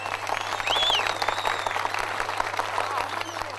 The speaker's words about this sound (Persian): دعوت میکنم از جناب آقای ارشد جلالی رو تشویق بفرمایید.